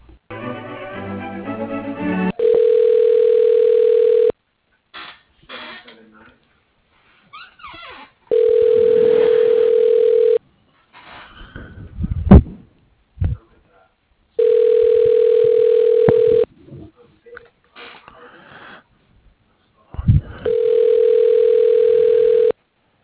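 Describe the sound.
Telephone line ringing while a call is transferred to a voicemail at a hospital radiology office: four loud, steady ringback tones, each about two seconds, repeating at even intervals, with brief talk at the start and short scattered sounds between rings.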